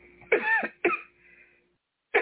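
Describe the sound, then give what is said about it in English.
Coughing and throat clearing from a person with a tickle in the throat: two harsh, raspy bursts close together, a short quiet pause, then a third burst starting right at the end. “Excuse me, a little tickle in my throat.”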